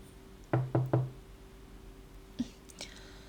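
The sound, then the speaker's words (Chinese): Three firm knocks on a door in quick succession, followed after a pause by a couple of fainter taps. “怎么敲了这么久才开门呢？”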